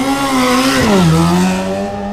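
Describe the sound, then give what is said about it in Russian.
A car engine roars loudly as the car speeds away, a steady, buzzy drone whose pitch dips briefly midway and then levels off. “Затем мотор взревел, и он унесся”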